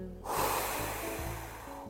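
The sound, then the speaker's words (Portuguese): A single deep, airy breath taken during a guided exercise with hand on chest and eyes closed. It is soft and breathy, with a sudden onset that swells and then slowly fades, heard alone without talk. “Coloca a mão no peito, fecha os olhos, respira fundo, inspira fundo, expira”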